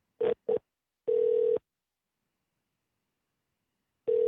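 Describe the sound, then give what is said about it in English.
Telephone tones as a call is placed to City Hall: two short beeps, then a longer steady tone, silence, and another tone beginning at the end, all clear and alone. “Calling City Hall.”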